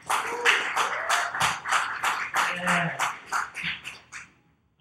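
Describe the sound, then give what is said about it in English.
Audience applause at a live Q&A event for actors: many rhythmic, crisp claps in a steady pulse, with voices mixed underneath, tapering off into near silence at the end. “Can we give it up for that, actually?”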